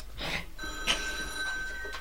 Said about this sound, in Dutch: Waarom gaat die telefoon nou weer?